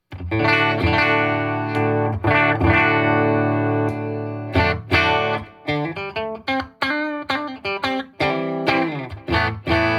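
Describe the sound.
Electric guitar in a clean tone on the bridge pickup with its coil split, giving a thin, single-coil-like sound: sustained ringing chords give way to quick, choppy strummed chords with short gaps, and the guitar plays alone.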